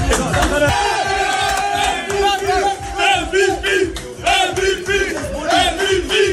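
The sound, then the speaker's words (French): An ovation in a Paris football club's dressing room: a loud group of players chanting and shouting in a driving rhythm, with repeated bursts of cheering throughout. “mais on préfère clairement écouter l'ovation qu'il a reçue dans le vestiaire parisien.”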